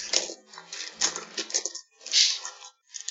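Ten dice thrown onto a table, rattling and clicking as they roll in a busy stream of sharp clatter, with brief lulls before the last few taps.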